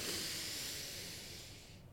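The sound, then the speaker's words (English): A deep breath drawn in through the nose as part of a breathing exercise: a soft, airy hiss that holds steady and then fades toward the end, heard alone. “And then big inhale through the nose, lift up, rise up, fill up.”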